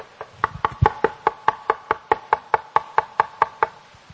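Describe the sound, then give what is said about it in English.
Knuckles rap on a wooden pulpit in a long, steady run of many evenly spaced knocks, each a sharp, hollow, mid-pitched tap at moderate loudness with no talk. “I'm hurting my knuckles. But I'm knocking. Knocking is painful to the knocker.”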